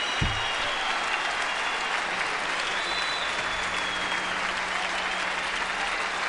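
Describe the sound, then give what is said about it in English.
Audience applause at a live jazz quartet concert: dense, steady clapping that fills the whole clip at an even level, with a single low thump at the start. “I love the audience noise.”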